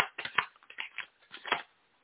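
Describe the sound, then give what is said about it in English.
Tarot cards being shuffled by hand: a series of soft, quick riffling and flicking bursts in an uneven rhythm, heard alone without talk. “I'm going to pull five cards for each one of you”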